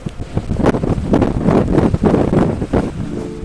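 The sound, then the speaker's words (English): Wind blowing into a microphone during an outdoor interview: loud, low buffeting rumbles in uneven gusts throughout, with no voices. “One of my very first interviews was completely ruined by the wind. I was so distracted by how bad the sound was that I couldn't even remember what my questions were.”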